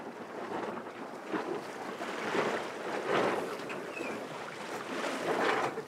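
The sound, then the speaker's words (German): Sailboat tacking on the sea: a continuous rush of wind and water noise with slow swells in loudness, steady and fairly faint throughout, with no voices. “Gut, fahren wir mal aus der Wolke raus. Heißt, wir machen wieder eine Wende.”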